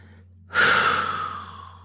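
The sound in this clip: A single long breath is blown out forcefully, an airy rush that starts abruptly about halfway through after near silence, then fades slowly, with no talking.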